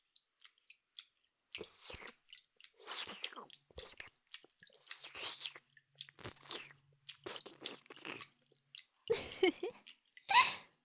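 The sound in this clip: Wet ear-licking sounds: soft, close slurps and smacking clicks in irregular bursts separated by short silences, with faint breathy whispering among them.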